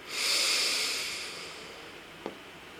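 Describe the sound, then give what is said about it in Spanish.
A person inhales deeply during a guided breathing exercise, a long, airy, hissing draw of breath that swells quickly and then slowly fades, followed by a small click. “Inhala de nueva cuenta.”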